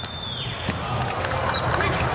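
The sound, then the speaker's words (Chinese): Volleyball serve by Mujanović, a sharp slap of hand on ball that stands out from dense, constant arena crowd noise. A commentator talks over it. “穆扬诺维奇的发球”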